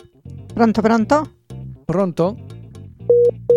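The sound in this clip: Telephone busy tone after a dropped call: two short, steady electronic beeps of the same pitch sound at the end, following a stretch of a person talking.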